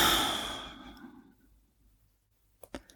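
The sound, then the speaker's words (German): A long breath out through the mouth during a guided breathing exercise, a soft airy rush that fades gradually over about a second and a half, followed by quiet and a couple of small clicks. “Setz dich einmal aufrecht hin, atme über die Nase ein und über den Mund wieder aus.”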